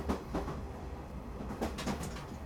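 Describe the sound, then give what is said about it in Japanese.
A faint, low rumble comes from an extra train hauled by an 8620 class steam locomotive. A few soft knocks and clatters rise briefly above the steady rolling sound. “臨時列車8620けいんだね。”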